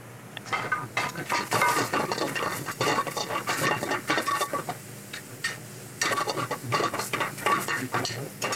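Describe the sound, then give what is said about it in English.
Confit tomatoes are tipped into a pan with oil while cooking pasta with oyster mushrooms. Busy clattering and scraping of a utensil against the pan runs loud and nearly continuous, with a brief lull midway. “we're gonna add some of these beautiful confit tomatoes. This is gonna release more moisture, a little bit of oil from the confiting itself.”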